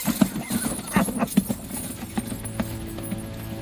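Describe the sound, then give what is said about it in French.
Horses galloping through a valley toward a ditch, their hooves drumming in a quick run of dull thuds that is strongest in the opening second and a half, then continues as a softer, steadier rhythm. “Suivez-moi, on passe le fossé au fond du vallon et on va le semer. Général Gourgaud, au galop!”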